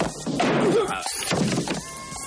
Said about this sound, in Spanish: Este lo esquiva, haciéndole caer al suelo, y después lo golpea con una bola de billar que previamente ha atado dentro de un pañuelo.